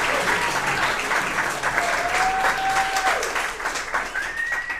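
Audience applause welcoming a freestyle-rapping performer to the stage: loud, dense clapping held at an even level for the whole stretch.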